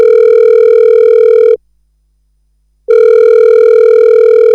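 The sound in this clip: A telephone rings as a loud, steady buzzing tone, cuts to about a second of silence, then sounds again at the same pitch.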